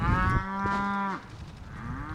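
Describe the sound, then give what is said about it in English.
A female beefalo, a beef and buffalo cross, moos on a 650-acre ranch in south central Missouri. One drawn-out, low, harmonic moo stands out, and a fainter call begins at the end. “About 25 female beefalo, most with a calf nearby, are grazing on the 650-acre A&K Ranch in south central Missouri.”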